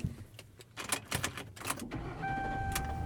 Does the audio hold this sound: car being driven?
yes